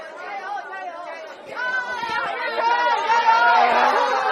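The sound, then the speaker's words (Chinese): Many teachers outside the college entrance exam venue cheer on and greet students, a dense babble of overlapping voices that grows louder toward the end. “大家看到我身后有非常多的送考老师们正在热烈的给学生们加油打招呼。”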